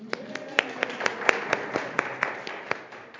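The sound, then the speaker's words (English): Steady, evenly spaced claps as an audience welcomes a guest preacher in church. The many sharp, regular hand claps are fairly faint over a low background hum. “So thank you. We appreciate you and your service. So let's give them a welcome.”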